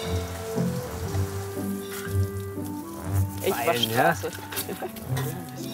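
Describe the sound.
Water sprays from a garden hose, a steady hiss of falling droplets running under people talking throughout.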